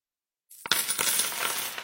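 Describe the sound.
Coins dropping: a few sharp metallic clicks, then a bright, continuous jingling rattle that stays steady and fairly loud to the end.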